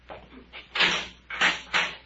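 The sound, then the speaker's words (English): A prison cell door is opened with a run of harsh rattling, scraping bursts: softer ones first, then three loud ones, over a steady low hum. “Get the cell door”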